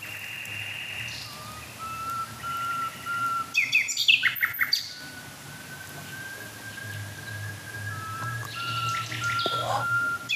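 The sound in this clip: Two birds calling together in a sobbing, wailing song, with faint, drawn-out tonal cries overlapping one another and a brief cluster of sharper chirps midway.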